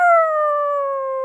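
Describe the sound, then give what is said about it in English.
A long wolf howl from a pack of five wolves surrounding a tent in the morning, one loud sustained tone sliding gently downward in pitch, heard alone. “That was 5 wolves who surrounded my tent that morning.”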